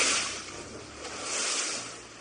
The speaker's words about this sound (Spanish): Este es el sonido de ese baile que la manada de delfines realizaba en el mar